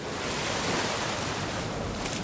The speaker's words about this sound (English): This region is famous for waves breaking on sandy beaches.